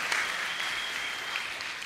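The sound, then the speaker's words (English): Brief applause from an audience of children and adults clapping for a girl who answered a question correctly, a short, steady burst of many hands. “Wedding ring, yes, give her a clap, she's done very well, fantastic.”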